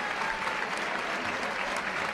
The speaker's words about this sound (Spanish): Pues ahí recoge el premio del aplauso, de la ovación cariñosa que...